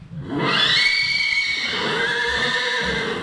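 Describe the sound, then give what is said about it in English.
A chestnut Thoroughbred mare and two stallions neigh at Lane's End Farm near Lexington. One loud, long, quavering whinny rings out, sliding gradually downward and trailing off. “A chestnut mare is greeted by two stallions at Lane's End Farm near Lexington.”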